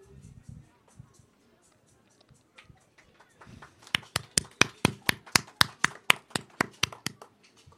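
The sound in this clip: Audience applause at a spoken-word performance, with the crowd calling for another piece. Scattered soft claps come first, then a steady, rhythmic unison clapping with many evenly spaced, crisp beats that grows louder.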